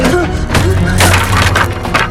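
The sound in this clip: Wooden stairs being smashed apart: a loud, continuous burst of cracking, crunching and splintering wood.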